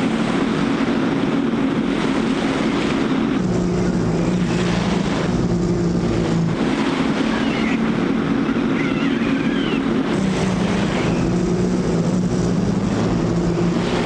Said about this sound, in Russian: По мосту едет немецкий легковой автомобиль с открытым верхом с четырьмя немецкими военными.